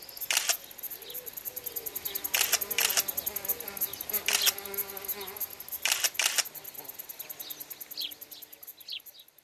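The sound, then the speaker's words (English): Camera shutter clicks while photographing insects and leaves by a tall tree: several sharp, crisp clicks, some in quick pairs, over a steady background hum of insects. “takes lots of photos of insects and leaves.”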